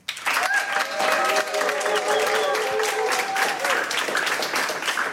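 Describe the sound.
Live studio audience applauding: dense, loud clapping that starts abruptly and holds steady for about five seconds.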